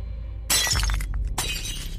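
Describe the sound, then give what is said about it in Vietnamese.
A bowl of noodles falls and shatters on the floor in a loud, sharp crash, followed by a second burst of breaking and scattering pieces. “Bát mì rơi vỡ xuống đất đánh choang một cái.”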